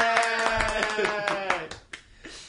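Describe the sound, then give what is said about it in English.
A few people clap their hands in a quick burst while voices cheer over it. The clapping thins out and fades toward the end. “Zach was just sadly waiting for us to say yay and clap for him”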